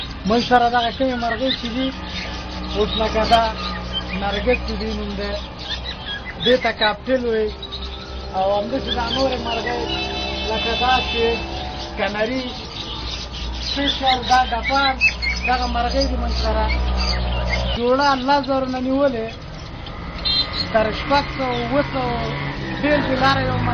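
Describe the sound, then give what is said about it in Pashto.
Caged birds squawk and chirp in a shop at a Friday bird market in Nangarhar, many overlapping calls rising and falling over steady background talk from people nearby. “د دغه بازار یو تن دوکاندار د سو ډولو هغو مرغیو نمونه راته اخلي چې د سره په دوکان کې شته دي”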